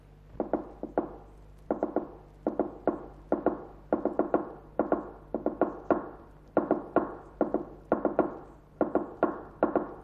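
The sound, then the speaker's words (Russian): A fork tapping on a table to imitate a telegraph machine: sharp knocks come in many quick, uneven clusters of a few strikes each, separated by short gaps, with no talk. “Дядь стучит вилкой по столу, подражая телеграфному станку.”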